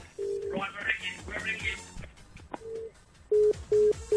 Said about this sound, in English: Right, we're ringing. If you see a withheld number come up, please answer the phone.